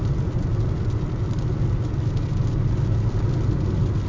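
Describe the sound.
A car engine drones steadily while driving away from a show in Newport in rural Oregon. The rumble is even, low and continuous, with no talk.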